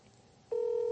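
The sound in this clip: Telephone dialing as a call is placed: after a faint hiss, a single steady electronic tone switches on abruptly halfway through and holds at an even level.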